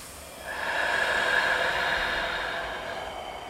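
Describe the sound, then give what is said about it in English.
Slow, deliberate breathing during a calm breathing exercise: a single long, airy breath swells, holds and gently fades, with no other sound. “Breathe in. Breathe out.”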